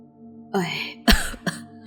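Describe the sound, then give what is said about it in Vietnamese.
An old woman coughs while covering her mouth: a hoarse, voiced throat sound followed by two sharp, rough coughs in quick succession, loud and alone. “Nói đến đây, bà cụ bịt miệng ho lên một tràng dài, rồi mới tiếp tục câu nói.”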